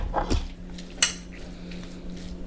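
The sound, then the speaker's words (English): Utensils scrape and clink against a bowl as salmon, rice, mayo and sriracha are mixed together: soft continuous scraping with a couple of sharper clinks, the brightest near the end of the first second. “All right, so now we have to mix up the mayo, sriracha, salmon, rice.”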